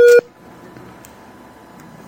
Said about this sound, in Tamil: உங்களுக்கு வேறு அழைப்பு வருகின்றதா? கூக்கு சொல்லுகின்றது. என்ன இணைப்பு சரியில்லையா உங்களுக்கு?